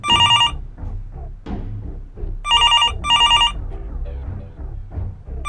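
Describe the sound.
Telephone ringing at a workplace: three short, bright trilling bursts, one at the start and two close together later, sounding over a steady low background.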